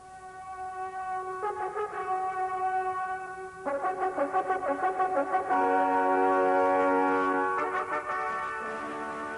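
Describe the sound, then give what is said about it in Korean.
A brass horn is blown in a forest to signal the end of a battle. Sustained, bright notes step through several pitches like a fanfare, with a pulsing stretch in the middle, ringing alone. “요압은 싸움이 끝난 것을 알리는 나팔을 불게 했습니다.”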